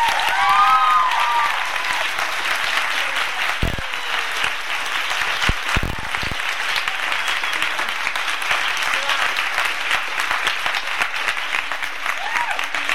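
Audience applause welcomes author Nicholas Sparks at a Tattered Cover event: dense, steady clapping from a crowd holds at an even, loud level for the whole stretch without pause.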